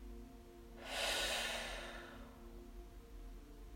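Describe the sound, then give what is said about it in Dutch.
A single soft exhale during a guided breathing exercise, an airy hiss that swells quickly, then fades slowly over about a second; quiet and alone, with no talking. “En met de uitademing doe je alsof het woord met je adem weggaat. Dus adem uit.”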